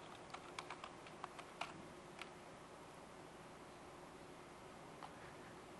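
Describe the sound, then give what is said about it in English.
Faint keystrokes as a password is typed on a computer keyboard: a quick burst of several light clicks, a pause, then one last click over steady background hiss. “Let me make sure I type the password right.”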